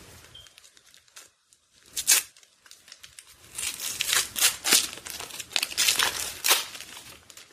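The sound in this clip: Paper tears and crinkles as a small gift package is unwrapped. Quiet rustles give way to louder bursts of ripping and crumpling in the second half, with no talking.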